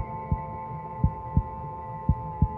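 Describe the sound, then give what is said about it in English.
A slow heartbeat of five low, soft thumps, mostly falling in close pairs, over a steady humming drone with no voices. “You lifted the seed to your ear and you heard the sweet beating of her heart.”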